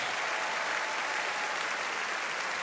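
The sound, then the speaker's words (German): Crowd applause for show jumper Christian Ahlmann and his Westphalian stallion at Aachen, steady and dense clapping heard alone throughout. “Sie hören die großen Sympathien, die ihm jetzt hier in Form des Applauses schon entgegengebracht werden”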